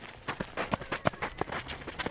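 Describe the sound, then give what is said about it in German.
Running footsteps in a chase on foot in an audio drama: many quick, uneven impacts at a hurried, steady pace, with no talk. “Der Polizist verfolgt sie. Das SOS-Team rennt ihm hinterher.”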